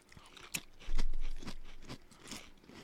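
Crunchy pickle-flavoured baked Lay's potato chips being chewed, a few sharp, faint crunches spaced roughly half a second apart, with no talk.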